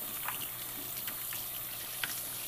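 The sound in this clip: Running tap water rinsing plastic baby bottle parts, a steady hiss and splash with a few brief light knocks as pieces are handled.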